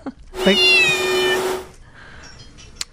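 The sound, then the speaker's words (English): A cat lets out one long, loud, drawn-out meow with a strained, wailing tone lasting over a second. Faint softer noises and a brief sharp click follow. “I just want to know, was the cat meowing, or was the cat meowing and also making the sound of a dryer?”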